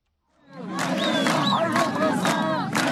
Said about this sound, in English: That's the sound of refugees and migrants that are stranded in the Greek border that have staged protests Wednesday.